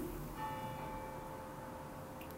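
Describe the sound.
A bell rings with a faint struck tone that hangs steadily and slowly fades over a soft, constant background hiss.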